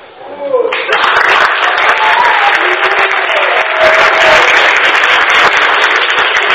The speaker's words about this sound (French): Alors, cette ovation n'est pas simplement un hommage à ma personne.